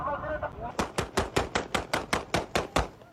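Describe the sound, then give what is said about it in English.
Gunfire in Afghanistan aimed at someone trying to climb a wall: a fast, evenly spaced string of many sharp, loud cracks in quick succession, like a rapid-fire burst. “That last shot was at someone trying to climb the wall.”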